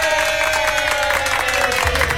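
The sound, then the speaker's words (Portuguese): Applause, a dense, continuous patter of many hands clapping at an even level throughout, with crowd noise mixed in. “Uma salva de palmas.”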